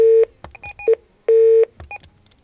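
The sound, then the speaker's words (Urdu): Electronic telephone tones sound after a dropped call. Two long, steady beeps alternate with bursts of shorter, higher dual-tone bleeps, clear and loud with no voices. “Call drop ہو چکی ہے جناب”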